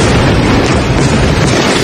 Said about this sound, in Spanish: Este es el sonido de los bombardeos esta madrugada en ese país, en Irán.